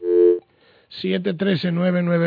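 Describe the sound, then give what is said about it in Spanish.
A telephone busy tone after a dropped call: one short, loud, steady beep at the start, then a brief gap and someone talking for the rest. “se le cayó la llamada de la hermana del alma.”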